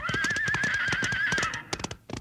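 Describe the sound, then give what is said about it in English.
A spooked horse whinnies in one long, loud, wavering neigh that holds a shaky high pitch, then breaks off into a few sharp hoof clops. “He's got that horse so spooked up it doesn't know what it's doing.”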